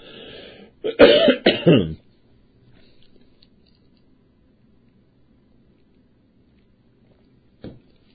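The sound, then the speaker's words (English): A coughing fit with throat clearing: a few harsh, loud coughs burst out in quick succession, then quiet follows until one short cough-like sound near the end. “Just had a throat blowout. Hold on, hold on.”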